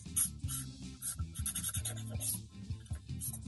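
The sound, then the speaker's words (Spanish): Marker pen drawing on paper, a rapid series of short, scratchy, squeaking strokes in an uneven rhythm, soft and heard alone. “¿Lo vas a dibujar? Sí, lo está dibujando.”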